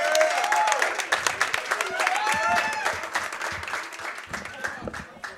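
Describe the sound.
Steady applause from an audience at a live football roundup in a bar, clapping for the team's coach; dense clapping that holds throughout and eases slightly toward the end.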